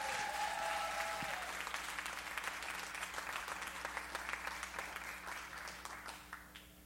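Audience applause welcoming a pastor at a church service: dense, steady clapping from a crowd that holds strong, then gradually thins and fades toward the end.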